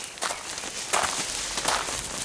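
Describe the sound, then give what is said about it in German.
Footsteps walk over toward someone in a row of a fruit-picking field, a few soft, uneven steps against a steady rustling background with no talk. “Ich gehe mal zu ihm rüber.”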